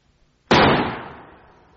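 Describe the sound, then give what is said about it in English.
A single revolver gunshot: a sudden loud crack bursts out of near silence, then a ringing tail slowly fades away over about a second. “He took a revolver from his pocket and shot himself through the mouth.”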